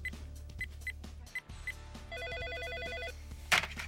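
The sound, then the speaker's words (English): A telephone rings as a call is placed to a building's lobby downstairs. A few short beeps come first, then one warbling electronic ring of about a second with a rapidly alternating tone. “I'll dial the lobby downstairs.”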